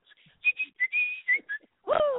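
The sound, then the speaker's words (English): A person whistles a quick string of clear, high notes, some short and one held longer, at moderate loudness. The whistling ends with a brief falling vocal sound. “I knew you'd be whistling. I knew it.”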